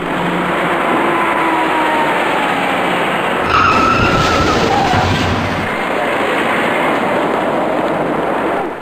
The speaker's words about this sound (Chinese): 前方行驶的车辆纷纷减速停车，可是驾驶这辆白色小客的司机却还在快速向前行驶。由于自己措施不及，他把已经减速停住的一辆深色小客给顶了出去